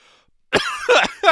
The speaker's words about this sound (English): Sitting here by myself choking. Ugh. Just wash that down with a little award-winning Pabst Blue Ribbon.